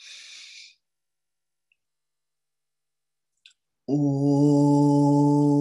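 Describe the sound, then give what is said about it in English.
A deep inhale during a breathing exercise, heard as a short, airy rush of breath. Near silence follows, then a voice begins a loud, sustained om chant. “So we'll breathe in.”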